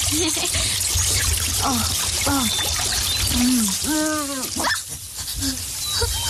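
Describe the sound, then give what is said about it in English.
Water pouring from a magic spring makes a steady, hissing rush throughout, while a small dog whines and yips over it in short, high bursts. “Hurry, let's go find the water. Oh, it's a magic spring, Toto.”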